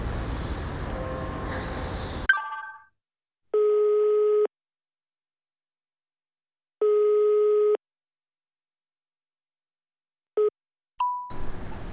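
A telephone line signal while calling someone: two long, steady electronic tones with a pause between, then a brief third one, framed by short handset clatter at the start and end.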